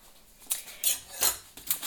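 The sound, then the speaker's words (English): A small plate and a knife are set out on a surface, giving a few light clinks and knocks spaced apart, with no talking. “Now then, I have got out a small plate and a knife”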